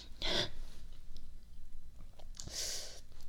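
Someone eats sour oranges, chewing quietly with soft wet mouth sounds, broken by two louder breathy slurping bursts, one at the start and one near the end.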